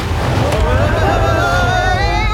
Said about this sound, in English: Whoa, it's like a river of orange juice rushing around the papillae.